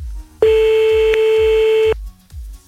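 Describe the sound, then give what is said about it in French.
A telephone ringback tone on a call that goes unanswered: one long, steady, even beep lasting about a second and a half, which then cuts off into quiet. “Et ça ne décroche pas.”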